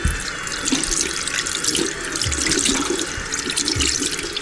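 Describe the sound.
Water runs from a tap into a sink as someone refills a glass for a drink, a steady, continuous splashing rush that holds at an even level throughout.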